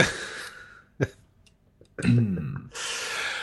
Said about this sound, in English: Sorry, I had something stuck in my throat.